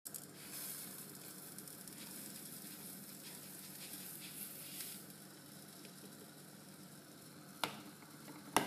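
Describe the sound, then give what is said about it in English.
Steady, faint hissing and bubbling of a Ghanaian sobolo pot of hibiscus, lime and cinnamon stick coming to a boil. The sound runs continuously, with a couple of sharp clicks near the end. “So I got hibiscus, lime, cinnamon stick. You want to bring that to a boil.”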